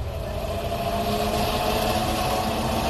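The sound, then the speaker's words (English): Steady engine drone of a spaceship running on sublight drive: a continuous, even hum with a low rumble and sustained tonal bands. It holds at a constant level throughout, with no voices. “Bring us in closer. Aye, aye, sir. Moving us in on sublight drive.”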